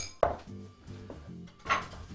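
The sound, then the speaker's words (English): Whisk working vanilla extract into whipped cream in a bowl, with quiet rattling, two sharp clinks against the bowl, one near the start and one later, and softer knocks between. “I'm just going to add about 1/2 teaspoon of vanilla extract and just whisk that in.”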